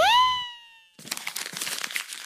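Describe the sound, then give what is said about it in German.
A small scrap of paper is handled, giving a light, fairly quiet crinkling and rustling. It follows a short gliding tonal sound and a brief pause. “Ich habe da drüben etwas Weißes entdeckt. Ich glaube, das ist ein weiterer Papierschnipsel von Robert.”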